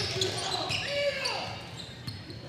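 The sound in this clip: A basketball dribbled on a court during a game, rhythmic bounces heard beneath continuous talk.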